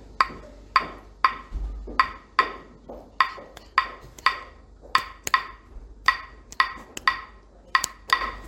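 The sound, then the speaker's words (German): Claves, two shaped wooden sticks, struck together in a long run of many sharp, dry, bright clicks at a steady, fairly even pace, some hits falling close together. “Zwei Holzstäbe kann man sagen, die von den Musikern eben bearbeitet wurden, damit der Klang besser ist. Ja? So ein Klaveschlag hört sich so an.”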